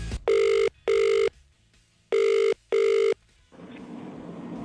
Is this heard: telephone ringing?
yes